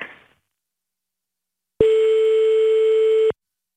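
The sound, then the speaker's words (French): Telephone ringing on a call to a mother: one steady, mid-pitched ring tone lasting about one and a half seconds, heard alone after a faint brief noise at the start. “on appelle maman”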